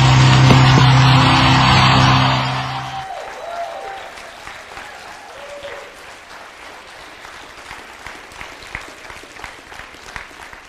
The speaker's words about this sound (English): Get up on your feet, put your hands together, and show your love for the second coming of the one and only.